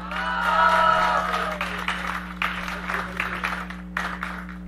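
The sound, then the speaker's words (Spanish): Audience applause at a tribute event honoring a colleague's 40 years of dedication: dense, steady clapping that is loudest near the start and continues to the end over a low electrical hum. “Le damos otro aplauso.”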